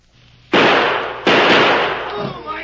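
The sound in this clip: Gunshots in a shootout with a sheriff and escaped prisoner: two loud, sharp bangs, each trailing off in a long, noisy decay.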